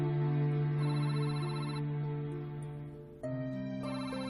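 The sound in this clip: A telephone ringing in a tense medical drama scene: a faint, steady electronic ringtone of sustained tones that drops briefly, then jumps to a different pitch pattern.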